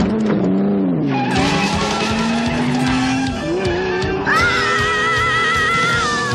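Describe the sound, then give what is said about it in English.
Tires squeal in long, wavering screeches as a car drives and skids over a loud, steady engine roar. The squeal jumps higher about two-thirds of the way through and holds there. “So he's driving with the blindfold on with the hot chick and the riding shotgun.”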